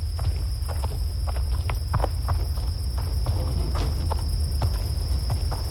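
Footsteps walking around a stone well, many soft irregular steps with light scuffs and taps over a steady hiss and a faint constant high whine.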